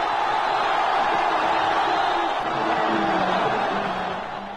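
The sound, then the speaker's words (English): Protesters in a Cairo square cheer as Hosni Mubarak steps down. A dense, steady roar of crowd voices runs throughout and fades somewhat at the very end. “The people in the square, who hate him as a dictator, cheered.”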